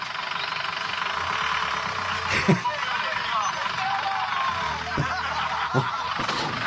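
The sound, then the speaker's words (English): A white Transit van pulls up, its engine a steady low drone with a few sharp knocks along the way. “White transit van comes up. Listen to this.”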